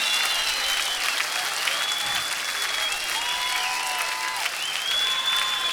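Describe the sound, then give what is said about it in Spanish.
A live concert audience claps loudly and continuously at a tribute show, with high, wavering whistle-like tones rising above the steady crowd applause. “Todos arriba, en vivo, con esas palmas que se escuchen, porque se está grabando en vivo, está llegando a todo el país.”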